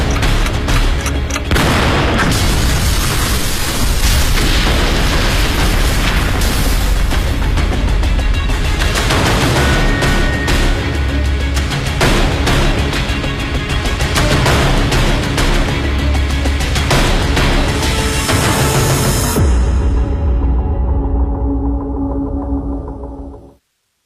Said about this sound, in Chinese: 有一黑衣人在正房的里间和外间屋顶上各安放了一枚定时炸弹。稍后，房屋爆炸。